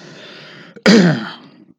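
A person clears something stuck in their throat: one loud, rasping burst with a gravelly voiced edge that lasts about a second and then fades, after a quieter stretch of low background noise.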